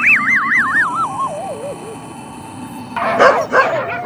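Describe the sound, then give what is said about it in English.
A dog barks and yips a few times in short sharp bursts near the end, after a long warbling tone that slides downward in pitch, in a comic sketch about a futuristic group-mind canine. “But you heard it here first. Dogtha, the first group mind canine, mankind's best link.”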